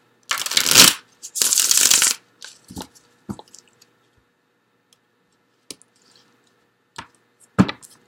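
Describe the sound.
Tarot cards are shuffled to draw one more card: two quick, loud bursts of riffling, followed by several light, scattered taps and clicks as the cards are handled.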